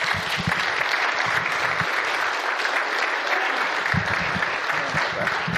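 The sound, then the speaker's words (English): Audience applause welcomes two guests to the platform at a morning gathering: loud, dense, steady clapping that carries on without a break, with a few heavier claps standing out. “So it's just our honor and privilege to invite you both to the platform this morning. Welcome. Let's give them a hand.”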